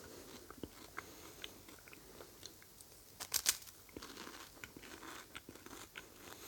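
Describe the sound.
Crisp crunching bites and chewing of a filled waffle: faint, irregular crackly crunches with a louder cluster of bites near the middle, then continued chewing, heard alone.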